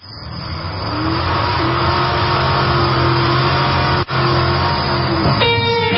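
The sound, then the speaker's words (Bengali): A car engine revs and drives off fast: the loud drone climbs in pitch, then holds steady and strong, with a brief dip and a shift in tone near the end. “Driver please please গাড়ি start দেন, একটু তাড়াতাড়ি যাই। হ্যাঁ, গাড়িটা একটু তাড়াতাড়ি চালান।”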